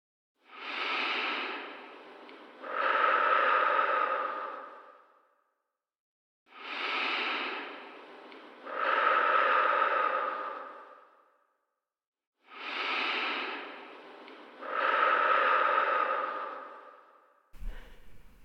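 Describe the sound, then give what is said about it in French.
Three slow, deep breaths in a guided breathing exercise, each an audible inhale followed by a longer, louder exhale, separated by short silent pauses, with no talking. “je vous propose de commencer ensemble par trois grandes respirations.”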